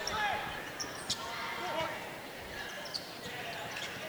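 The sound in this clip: Basketball dribbled on a court during a game, a few sharp bounces over a steady background hum, with faint high chirps in between.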